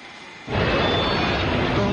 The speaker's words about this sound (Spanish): El avión, ese es el avión.